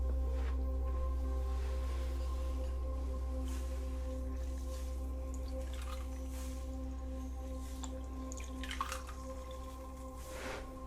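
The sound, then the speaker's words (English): Soft wet squishes and drips from a damp cloth sponge wiping the face during a spa facial treatment, faint and intermittent over a steady low hum. “And now let's just wash that off again with the cloth, the sponge.”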